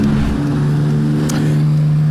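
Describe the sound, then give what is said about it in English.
Engine drone of racing motorbikes on the 40-mile mountain course of the Isle of Man TT: a loud, steady, continuous hum that holds its pitch throughout. “Motorbike racers take to the Isle of Man TT as they compete on the unforgiving and dangerous 40-mile mountain course.”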